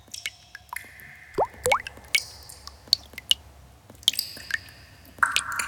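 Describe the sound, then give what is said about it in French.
Water drops dripping in an underground cave: many irregular plinks and plops, some with short ringing pitched tones, spaced unevenly over a faint low background. “On est sous la terre, dans une grotte. Dans la grotte, on n'entend que les gouttes d'eau.”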